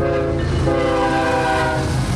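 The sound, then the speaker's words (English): A freight train rolls past on a former Santa Fe main line now run by BNSF, a steady loud rumble and rattle of cars with sustained horn tones layered through the whole stretch. “This former Santa Fe main line, now owned by BNSF, connects Chicago with the ports of Los Angeles and San Diego. Trains like this one bring goods imported from the Pacific Rim to America's heartland.”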